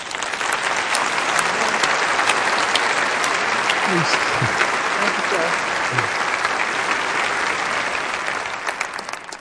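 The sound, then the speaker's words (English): Audience applause welcoming a speaker onstage: dense, steady clapping from many hands that holds at full strength for about eight seconds, then tapers off near the end. “Now, welcome with a great applause, Suzette Colwell.”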